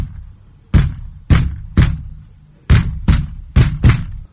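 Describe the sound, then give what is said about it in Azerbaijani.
Heavy thumps of a wolf kicking the walls of a house, a sound effect in a children's story: seven loud, booming hits in two uneven bursts, each one dying away quickly into quiet. “Başlayır evin divarlarını təpikləməyə.”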